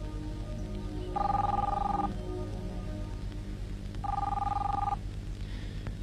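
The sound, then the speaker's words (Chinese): A telephone rings twice, each ring a bright, steady electronic trill lasting about a second, separated by a pause over a low, constant background hum. “你不想接电话？”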